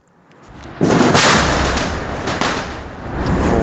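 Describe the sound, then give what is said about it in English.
Explosions from American airstrikes on a city: a loud, sudden boom swells into a heavy, broad roaring rumble that lasts several seconds, with further surges of noise rolling through. “You hear this? You see, this is major American airstrikes.”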